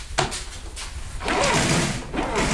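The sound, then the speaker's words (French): Window shutters being closed, with a few brief knocks followed by a longer rattling, scraping sweep and a shorter scrape at the end, all heard alone without talk. “Je vais fermer les volets.”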